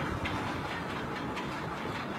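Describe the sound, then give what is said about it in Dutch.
A ship's anchor chain runs out rapidly from the anchor windlass, shedding rust as the anchor drops to the North Sea floor. The chain makes a dense, continuous clattering roar, steady and loud throughout, with no voices. “Het ankerwiel draait nu inmiddels. We gaan een noodgang naar beneden. Er komt een heleboel rook en roest vanaf. En zo verdwijnt het anker op de bodem van de Noordzee.”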